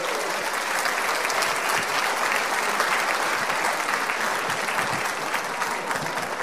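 Dense, steady applause from the crowd at the Erskine Military Ball 2022 for a pipes and drums band and a singer. The clapping holds at an even level throughout.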